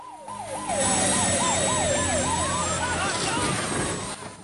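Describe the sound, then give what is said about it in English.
Police car sirens wail as two police cars pursue a speeding boat through an indoor fish market, with rapid rising-and-falling cycles overlapping loudly on a dense rumbling roar. “then, pursued by two police cars, it continues to plough its way through an indoor fish market.”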